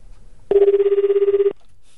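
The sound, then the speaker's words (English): A single telephone ring burst on an international call to Japan: a steady buzzing tone with a fast, even warble, lasting about one second and heard alone between quiet stretches. “Okay, it's not ringing yet. Oh, here we go, Japan. Here we go.”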